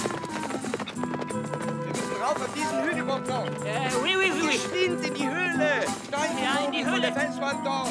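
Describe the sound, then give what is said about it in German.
Hooves of ridden horses clip-clop steadily as the riders set off, the rhythm running under loud, continuous music throughout. “Wir bestiegen die Pferde und ritten los.”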